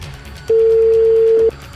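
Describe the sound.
Telephone tone heard while placing a call: a single steady, pure mid-pitched beep lasting about a second. It is loud and sits clearly above a faint background hiss.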